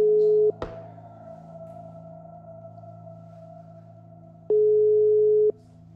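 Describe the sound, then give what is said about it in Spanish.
Telephone line tones from a call that is rung and then rejected: a short steady beep, a sharp click, a low quiet line hum, then a second steady tone lasting about a second before the hum returns. “Uy, no me contestó, me rechazó la llamada.”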